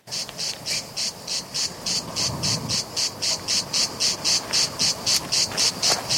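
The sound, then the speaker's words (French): A cicada sings in steady, rhythmic pulses of high, hissing buzz, many evenly spaced beats repeating without a break over a low background hum. “La cigale, dès qu'elle sent votre présence, elle s'arrête de chanter.”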